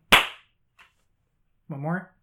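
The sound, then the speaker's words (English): One loud, crisp hand clap cracks sharply at the start, followed by a tiny faint tick and then a cheerful voice after a short silence. “One more. 3, 2, 1. Okay. Yay! We did it. Yay. That was maybe too close to the last clap”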